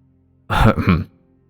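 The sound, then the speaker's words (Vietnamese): An old man gives a gruff throat-clearing cough to ready his voice: one loud rasping burst about half a second long, then quiet. “Lão Thân nghe vậy thì ho mấy tiếng, lấy giọng nói.”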